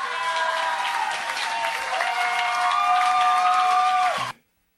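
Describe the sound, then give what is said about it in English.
Audience applause welcomes a performer introduced as representing Toronto: a dense, steady wash of clapping that holds at an even level for about four seconds, then cuts off abruptly. “Please put your hands together and welcome Spin.”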